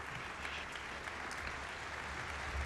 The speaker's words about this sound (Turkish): İzleyicilerin ısrarlı alkışlarıyla sanatçı Perihan Nayır Artan tekrar sahneye döndü.